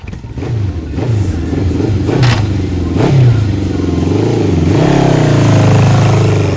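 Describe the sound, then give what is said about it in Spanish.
An ordinary motorcycle engine revs hard, loud and alone. Several rising and falling surges lead into a sustained higher-pitched roar near the end. “No, no es una moto de agua, es una moto común, amigo.”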